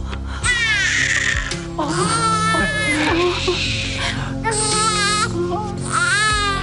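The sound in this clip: A newborn baby girl cries just after birth in loud, repeated high wails that rise and fall, with a steady low background sound running beneath the cries.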